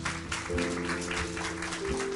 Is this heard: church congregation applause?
yes